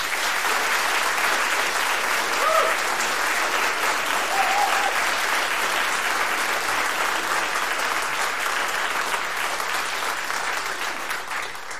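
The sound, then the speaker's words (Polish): Applause from a live audience at a radio concert in a studio, a thick and continuous clatter of many hands that holds steady and eases off slightly at the end. “W związku z tym, proszę Państwa, dla nich wszystkich jeszcze przed zapowiedzią. Brawa!”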